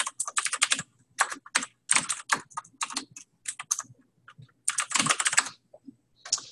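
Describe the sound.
Rapid typing on a computer keyboard while entering registration details: many crisp key clicks in uneven bursts with short pauses between them, and no talking.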